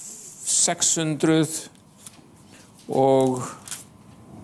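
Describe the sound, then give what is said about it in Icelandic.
Paper pages of a Bible are leafed through to reach a chapter of Psalms, giving brief soft rustles. A voice talks loudly in between. “fletti núna í hérna sálmana, 73. kaflan Sálmarnir”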